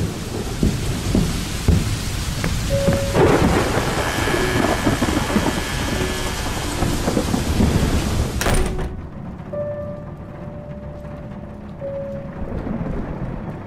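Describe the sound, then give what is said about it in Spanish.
Thunderstorm with heavy rain blowing in gusts through a window: a dense, steady rush of rain with rumbling thunder, which drops abruptly to a quieter, thinner patter about two-thirds of the way through. “Otra vez tormenta.”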